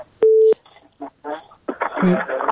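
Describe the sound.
A single telephone tone sounds as a listener's call is put through on a call-in show. It holds steady and loud for about a third of a second, then voices talk.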